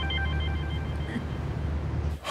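A telephone rings with a faint electronic warbling tone over a low background rumble, then cuts off abruptly.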